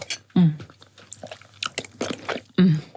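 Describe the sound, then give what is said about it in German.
Someone bites into and chews a dish made with dill, cream and a splash of pickle juice, giving soft, irregular crunchy mouth sounds broken by a couple of short voiced murmurs. “Dill, Sahne, ein Schuss Gurkenwasser natürlich. Natürlich, das riecht man schon. Es klingt komisch, aber ich probiere es jetzt.”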